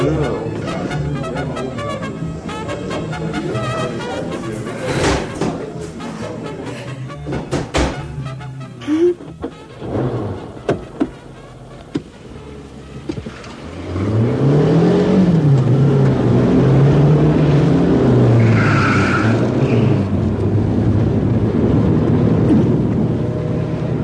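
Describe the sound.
A car is boarded and driven off: a few sharp clicks and knocks, like doors and handling, come first, then an engine starts up loudly and revs with a wavering pitch as it pulls away.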